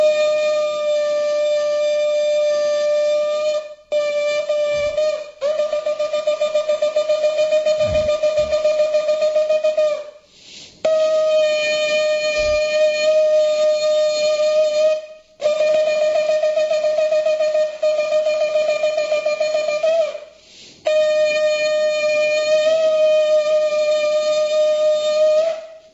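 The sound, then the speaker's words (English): A ram's horn shofar blown in temple after the Torah reading: a series of long, sustained blasts at a steady, reedy pitch, separated by brief breaks, with one noticeably shorter blast near the start. “This is the sound of the shofar, which is read in temple after the reading of the Torah.”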